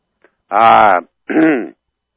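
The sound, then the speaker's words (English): A phone-in caller clears a frog in his throat with two voiced, groaning rasps, the first longer and the second shorter after a brief pause, loud and dry against silence. “You got a frog in your throat again.”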